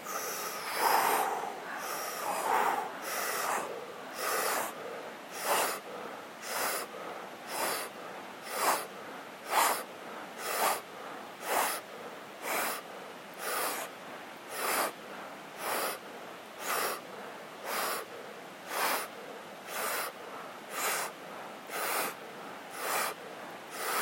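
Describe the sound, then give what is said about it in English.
Deep, forceful breathing from a breath-hold breathing exercise, with many steady, rhythmic airy inhales and exhales repeating roughly once a second, loud and alone without talk. “So we're going to do 30 to 40 deep breaths and then hold out.”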